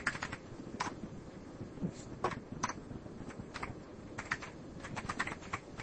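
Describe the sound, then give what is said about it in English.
Computer keyboard keys clatter faintly as a password is typed at a Windows XP login prompt, a few quick bursts of clicks separated by short pauses. “I think I typed the wrong password here.”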